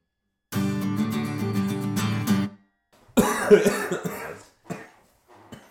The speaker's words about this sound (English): As in life, as in podcasting, it starts with a cough. It started with a cough.